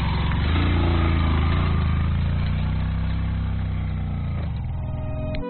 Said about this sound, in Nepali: समथलमा सहजै उक्लिन्छ मोटरसाइकल, उकालोमा तान्दै तान्दैन। एकजना ओर्लिनुपर्छ, एकजनालाई मात्रै चाहिँ लान्छ मोटरसाइकलले। तान्दैन हौ, तान्दैन।